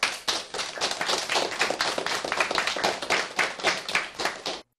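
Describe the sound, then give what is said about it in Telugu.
A crowd applauds singers after a song. Dense, continuous clapping holds at an even level throughout, then stops abruptly at the end. “చాలా అద్భుతంగా పాడారు కదా, వారికి చప్పట్లు కొడదామా?”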